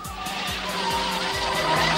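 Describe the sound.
Car tires skid on a road, a sustained squeal laid over engine noise that stays loud and steady throughout.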